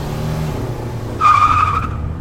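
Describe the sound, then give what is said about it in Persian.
Tyres screech as a Rolls-Royce speeds off: a low engine rumble gives way to a loud, high, wavering squeal lasting under a second before it fades. “همراهان به سرعت شاه رو سوار رولز رویس میکنن و به سمت بیمارستان راه میفتن.”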